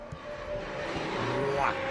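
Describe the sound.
A Formula 1 car pulls out during the final qualifying session at a Madrid circuit: a steady engine whine over a dense wash of noise, with a brief higher note near the end.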